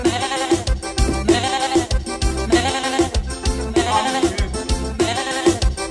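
Goat bleats repeat in a steady rhythmic loop, loud and continuous, each cycle a wavering bleat over a dense, music-like backing.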